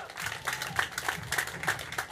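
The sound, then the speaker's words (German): An audience applauds as a racing driver in a race suit is welcomed at an event. The clapping is fairly faint, with sharper individual claps standing out in a loose, regular rhythm over a softer bed of applause. “Applaus für Kelvin van der Linde!”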